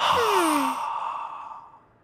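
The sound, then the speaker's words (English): A slow, audible breath out through the mouth, one long, slightly voiced exhale of about two seconds that trails off gradually into quiet. “Let's slowly breathe in through our noses, then slowly breathe out through our mouths.”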